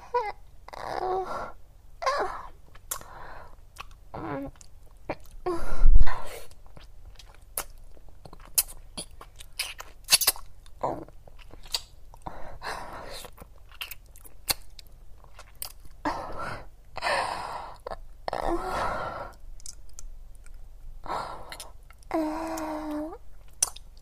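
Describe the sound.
Wet mouth sounds of nibbling an earlobe: many soft smacks, chews and small crunchy bites in an uneven rhythm, with occasional low moaning between them.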